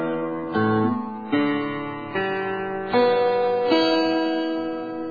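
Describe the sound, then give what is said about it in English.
A guitar is strummed slowly from the bass strings to the treble strings, each string sounding in turn and ringing on under the next, forming a sustained open chord with no talking. “Well, the way a guitar sounds, if you use it from top to bottom, it will be like this.”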